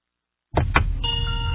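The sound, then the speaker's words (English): An electric car plays its welcome tune when the driver gets in. Silence gives way to two sharp clicks, then bright sustained electronic chime tones ring out steadily to the end. “Here we are, it plays a little tune every time you get in. A cheery. Very cheery, so a little welcome to your car.”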